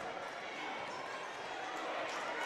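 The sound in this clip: A basketball is dribbled during a women's basketball game, its repeated bounces set under steady crowd noise and commentary.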